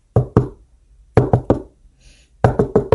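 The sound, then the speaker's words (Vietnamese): Heavy banging on a door from outside: nine loud, dull thuds in three uneven bursts of two, three and four, with short silences between and no voices. “bên ngoài tiếng đập cửa càng nặng nề hơn”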